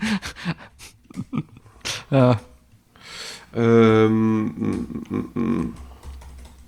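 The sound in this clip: A prompt is typed on a computer keyboard with quick, light key clicks, mixed with people talking and breathing.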